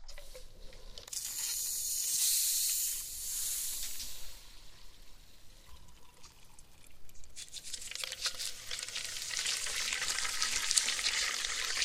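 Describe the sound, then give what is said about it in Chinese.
Alcohol is sprayed onto a patient's head with a hissing spray. One long burst is followed by a pause, then a second longer hiss that builds steadily louder to the end. “现在给患者头部喷的是酒精，然后倒入刚才我们所说的混合剂。”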